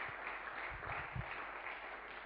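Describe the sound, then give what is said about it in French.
Applause from a church audience after a song: faint, steady clapping that fills the whole stretch as an even wash of noise. “Est-ce qu'on peut acclamer l'Éternel pour ce beau chant?”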